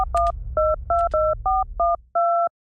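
Touch-tone keypad beeps as a telephone number is dialed: eight dual-tone presses in quick, slightly uneven succession, the last one held longer. A low rumble runs under the first few tones and fades.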